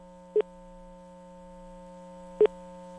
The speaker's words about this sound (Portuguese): Liguei certo, cara. Liguei certo. Vamos ver, atende aí, pô.